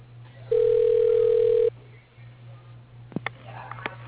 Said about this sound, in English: please enter the extension number followed by the pound sign. Your call is being transferred.